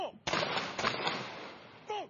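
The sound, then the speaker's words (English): Gunfire from a ceremonial salute fired by a police guard unit at a memorial ceremony: a sudden loud blast, then sustained rumbling noise, with brief voice-like sounds at the start and end. “A police rival guard unit fired a salute, followed by 2 minutes of silence.”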